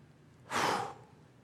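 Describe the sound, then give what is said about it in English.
A single breath is exhaled in a soft, airy rush that swells and fades over about half a second, with nothing else heard. “He breathes on them,”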